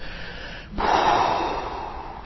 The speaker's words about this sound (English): a couple of quick techniques in terms of the parasympathetic system. Exhalation.